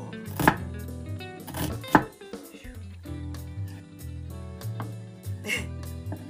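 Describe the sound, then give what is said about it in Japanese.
A knife slicing onions thinly on a board for onion gratin soup, giving a few sharp chopping strokes over steady background music. “薄めに切るって言ったら全然薄くならないんだけど大丈夫かなこの。”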